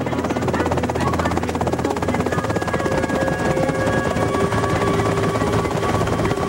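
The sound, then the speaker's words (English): A helicopter prepares to land. Its rotor gives a loud, steady thrum with a dense, rapid chop, and sustained whining engine tones run beneath it. The level stays even from start to end. “the helicopter as it prepares to land”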